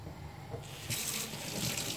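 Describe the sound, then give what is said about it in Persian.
Hands are washed under a running tap while cooking, a faint steady hiss of flowing water that swells in after a quiet start and continues to the end. “دستم هم الان میشورم”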